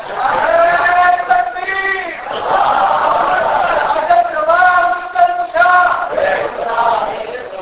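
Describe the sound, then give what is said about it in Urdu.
A crowd shouts a religious slogan in unison at a Sunni religious gathering. Several loud, sustained chanted phrases follow one another with brief breaks between them. “اس کو کہو پھر سوئے نہیں، نعرہ لگا کر، یہ نعرہ آخری ہوتا ہے بھائی”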